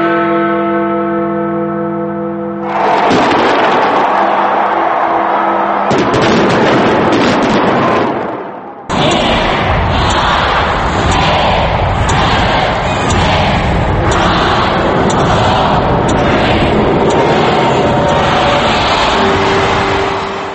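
Fireworks at 2010 New Year celebrations make a loud, dense, continuous wash of booms, thuds and crackle. It starts abruptly after a brief tonal passage, then keeps going with hardly any break.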